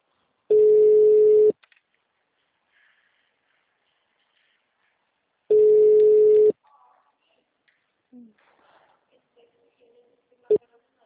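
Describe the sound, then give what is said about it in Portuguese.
Two long, steady ringback tones from a phone call that goes unanswered. Each lasts about a second with a pause of several seconds between them, followed by faint clicks and low rustling. “E você tentou ligar, né? Não atende.”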